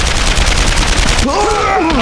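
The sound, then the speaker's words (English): Assault rifle and machine gun fire erupts at an entrenched machine gun position in battle: a loud, dense barrage of overlapping shots that runs without pause for the whole clip. “Paul opened up with the Schmeichel. Hammerschmidt's assault rifle thundered beside him.”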